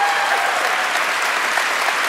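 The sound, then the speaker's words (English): Applause from a live audience at an evening show, thanking the guests: dense, steady clapping that holds at an even loudness throughout, with no voices on top. “And could we please have one more round of applause for all our guests tonight?”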